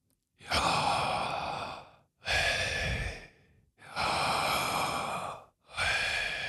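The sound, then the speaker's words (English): A person breathes out through an open mouth with slight tongue movement. Four long, airy exhalations, each lasting about one and a half seconds, are separated by short pauses. “I'm going to breathe the name of God. I'm not going to use my lips or teeth as I would in communicating as I am right now. I'm just going to breathe.”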